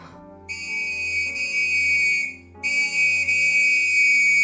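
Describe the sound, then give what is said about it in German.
A constable's police whistle gives two long, shrill blasts at a steady high pitch, separated by a brief gap, with a low background hum underneath. “Auf das durchdringende Pfeifen des Wachtmeisters eilte ein Kollege herbei”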